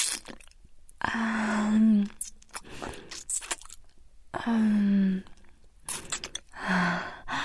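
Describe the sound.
Wet chewing and crunching mouth sounds mimic biting into and eating an eyeball. They come in a few moist, squishy bursts, with brief voiced hums between them.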